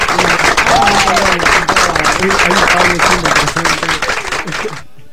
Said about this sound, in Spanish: No sé si aplaudirlo, somos tan poco que va a sonar deprimente